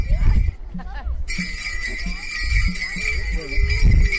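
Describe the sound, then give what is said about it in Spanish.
A cascahuilla bell rings with a bright, sustained shimmering tone beneath ongoing talking, starting a little after the opening and continuing to the end. “La cascahuilla está sonando.”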